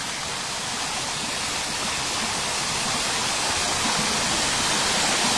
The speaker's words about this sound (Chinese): 就是这个流水的声音听不够， 对， 来自于自然的声音，而且这个不是你人为整的，就是山清水自然而然流下来的